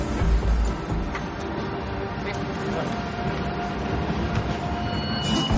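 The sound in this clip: A passenger train in motion, a continuous low rumble with rattling of the wagons on the rails, fairly loud and steady throughout.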